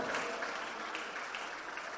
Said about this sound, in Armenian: ծափողջունները մեր թագավորին։